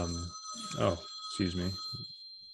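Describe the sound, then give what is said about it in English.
A telephone rings with an incoming call, making a steady high electronic tone that continues under a person talking and stops shortly before the end. “that's embarrassing, getting a phone call. Sorry about that.”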